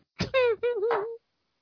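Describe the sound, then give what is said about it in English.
A female house cat meows once during a movie: a single drawn-out, whining cry of about one second, clear and fairly loud, with a wavering pitch that dips and rises before it stops. “Oh, thought the cat would sleep through the movie, but no such luck. You about to kick the cat out? Yeah, if she starts whining, I am.”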